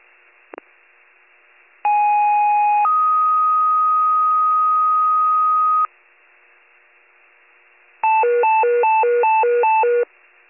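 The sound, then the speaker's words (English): Warren County fire dispatch alert tones sound over a radio channel: a short click, then a brief tone stepping up into a long steady tone of about three seconds, and after a quiet gap a rapidly alternating warbling tone pattern. “Station 74 Fire, Station 74 Fire, disregard blast tones”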